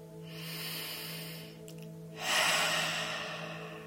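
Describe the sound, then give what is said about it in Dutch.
Slow, calm breathing in and out at the start of an affirmation exercise: a soft airy breath, a short pause, then a fuller, louder breathy phase. The breathing is steady and there is no speech. “En ik begin allereerst om heel rustig in en uit te ademen.”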